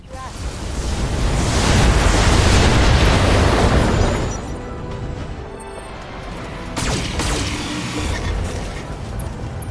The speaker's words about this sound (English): We're gonna do an alpha strike. Fire everything. 2 medium lasers, 3 SRM-6s, and an LRM-5. Fire!